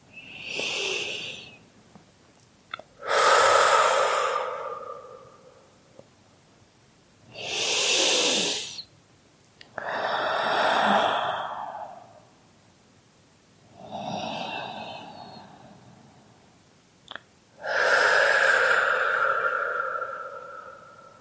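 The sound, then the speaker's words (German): Slow, deep breaths taken during a guided relaxation exercise: several long, airy, whooshing inhales and exhales, each swelling and fading, separated by quiet pauses, with no talk. “dann lade ich dich jetzt ein, ein paar Atemzüge und nur so drei, vier wirklich tiefe Atemzüge damit zu nehmen”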